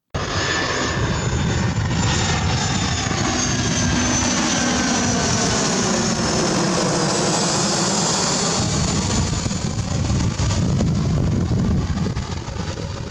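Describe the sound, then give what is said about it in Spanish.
An airplane passes with a loud, steady engine roar that fills the whole clip, broad and rumbling with a hissing upper layer, holding nearly constant loudness from start to end with no voices. “¿Qué es eso que acabamos de escuchar? En efecto, es un avión.”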